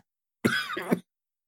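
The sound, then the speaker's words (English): A single harsh cough, about half a second long, heard alone between silences, with a second rough push of air at its tail. “sorry, I was in the middle of coughing. I didn't want to cough in the mic”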